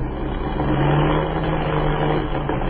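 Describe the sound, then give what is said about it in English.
A heavily loaded plane's engine misfiring, heard as a loud, continuous rough engine drone with no break and no voices. “What is the trouble? The motor is missing.”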